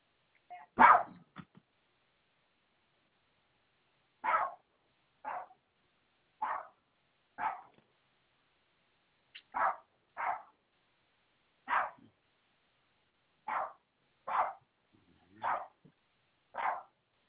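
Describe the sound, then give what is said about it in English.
A dog barks in many short, sharp single barks, spaced a second or more apart with silence between them, at a fairly soft level. “That was my dog.”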